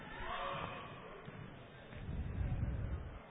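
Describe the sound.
During a basketball game, a ball is dribbled across the court. The bounces are faint and repeated, heard under play-by-play commentary and crowd noise.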